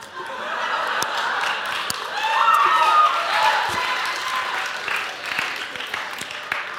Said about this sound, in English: Thank you for the applause.